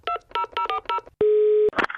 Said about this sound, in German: Wir rufen sie einfach mal an.